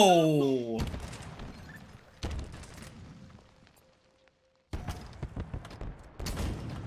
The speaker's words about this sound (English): It's also rockets, so it's just kind of like, hey, just fire and hope for the best.